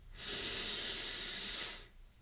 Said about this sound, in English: Again, inhale for 3 seconds,